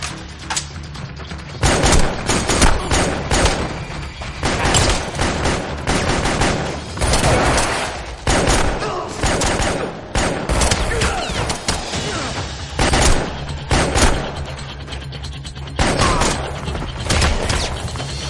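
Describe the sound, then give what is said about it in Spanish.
Submachine-gun fire during a shootout in the 2017 action film John Wick: Pacto de Sangre. Many loud, rapid bursts are broken by brief pauses, mixed with heavy booming thuds and crashing impacts. “Combate en otra galería. Recarga el subfusil y continúa.”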